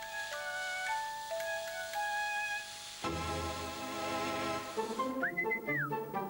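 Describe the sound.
A person whistles a short tune in clear, high, sustained notes over a soft backing. After the backing swells, a final whistled tone rises, holds and falls away.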